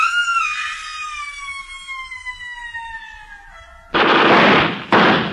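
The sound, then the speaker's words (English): Gunshots in a film scene: two loud, broad blasts, the first ringing on for about a second and the second shorter, come after a high, steadily falling tone. No one speaks. “He's down. Come on. You still got the gun. Is he dead? No, you better get an ambulance.”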